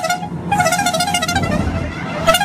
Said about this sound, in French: c'est surtout le passage de la traditionnelle caravane du Tour de France, avec en plus le char d'issu et puis ce petit klaxon qu'on adore.